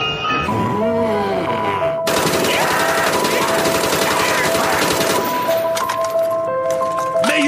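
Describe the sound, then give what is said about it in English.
Gunfire rings out while shooting hordes of Nazi zombies in the video game Call of Duty, dense rapid bursts with metallic clinks over game music, with a voice heard at the start. “Man, I love shooting hordes of Nazi zombies on Call of Duty.”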